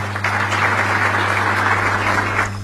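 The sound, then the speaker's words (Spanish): Audience applause at the close of a governor's short speech to about forty mayors from the central-south of the province: dense, steady clapping that holds at an even level throughout, over a low constant hum. “les aplaudo, y apláudense usted también, que tanto, apláudense”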